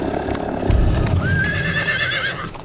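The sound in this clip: Horses ridden along a river: hooves clop beneath a loud whinny that rises partway through and carries to the end.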